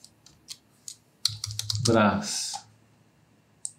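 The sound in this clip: The word Petrobras being typed on a computer keyboard: a few light, scattered key clicks, then a quick burst of keystrokes, with a voice talking briefly over part of it.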